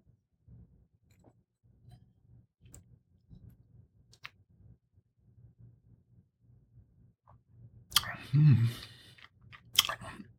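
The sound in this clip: Sipping and tasting Chianti red wine: a long quiet stretch of faint mouth noise and low murmur, then a short wet slurp and swirl near the end, followed by a sharp click.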